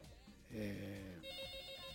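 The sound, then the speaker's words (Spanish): A telephone rings with an incoming call: a steady, faint electronic ring tone gives way to a quicker, pulsing beep-like ring. “Otra llamadita. Siguen las llamadas, siguen los mensajes llegando.”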